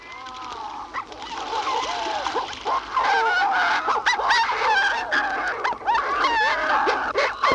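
A shearwater calls from its nesting burrow at night. Many harsh, wavering, honking cries overlap in a dense, loud, continuous chorus with no gaps.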